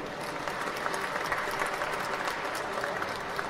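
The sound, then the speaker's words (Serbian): Dense, steady audience applause greets diaspora cultural organizations presenting their work at a large fair with over 100 exhibitors, folk ensembles and musicians. The clapping stays loud and even throughout, with no pauses. “Molim vas da ih velikim aplauzom sve pozdravimo.”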